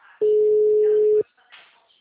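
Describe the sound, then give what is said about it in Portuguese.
Telephone busy signal on a call that went unanswered: one steady, low-pitched electronic tone lasting about a second, loud and clean, with faint talk around it. “Deixa eu ver se ela vai atender primeiro. Tá. O número está ocupado.”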